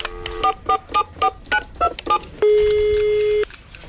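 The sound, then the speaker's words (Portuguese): Telephone being dialed: a quick, evenly spaced run of several bright keypad beeps, followed by one steady electronic tone lasting about a second before it cuts off. “Deixa eu ligar de novo.”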